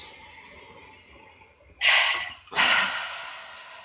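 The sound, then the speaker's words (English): A deep breath taken during a guided tapping relaxation exercise: two strong, airy breath bursts, each swelling and then fading, with quiet room tone before them and no talk. “Close your eyes, deep breath.”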